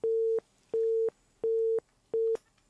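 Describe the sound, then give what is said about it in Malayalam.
A telephone busy tone sounds after a call is cut off: four even, mid-pitched beeps repeat at a regular rhythm with short silent gaps between them. “ആ call കട്ടായി തോന്നുന്നു.”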